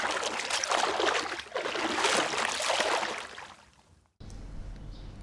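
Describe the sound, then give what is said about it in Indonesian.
Water splashes and sloshes steadily as a rainbow broom is washed and scrubbed with soap, a continuous noisy wash that fades briefly and then cuts to a lower rumbling texture near the end. “Ayo sini, aku cuci kamu biar kamu bersih.”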